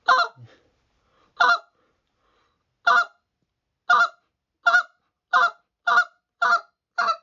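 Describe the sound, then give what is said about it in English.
A goose call is blown as a finishing call during early-season goose hunting: nine loud, sharp honking notes. The first few are widely spaced, then the notes come faster and more evenly toward the end, with no voices. “I'm running that call to get a reaction from those birds.”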